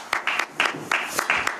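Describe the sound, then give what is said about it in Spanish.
Brief, patchy applause from a small group at a comedy show, coming in a few quick, uneven clusters of claps that rise and drop over about a second and a half. “Un aplauso.”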